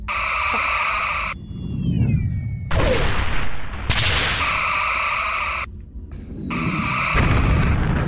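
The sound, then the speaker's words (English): Starship weapons firing in bursts: four long, loud, buzzing energy blasts with layered ringing tones over a deep rumble, separated by brief gaps. “Aim, Lieutenant, and fire on my mark. 3, 2, 1, fire! Fire!”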